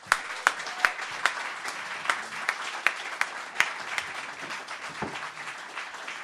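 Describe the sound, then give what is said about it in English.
Studio audience applause greets a comedy panel walking onto the stage of a topical comedy show: loud, dense clapping from a crowd, steady throughout, with a few sharp accented claps standing out. “Now, please keep your hands together and join me in welcoming to the stage your panel for this week's show”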